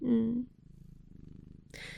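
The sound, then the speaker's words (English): Low, rhythmic purring from an elderly cat nearly ten years old, a soft steady pulse of breathy throbs, with a person talking briefly before and after it. “Oh, here's my cat.”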